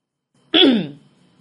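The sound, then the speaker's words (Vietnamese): A single short throat clearing, a voiced rasp that falls in pitch and fades quickly in near silence. No door knock follows. “Duy Thành nửa mừng nửa lo, đứng trước phòng cô hắng giọng gõ cửa”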